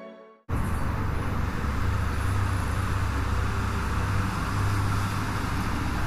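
An orange car driving along a road: steady engine hum and road rumble that starts abruptly and holds an even level throughout, with no talk.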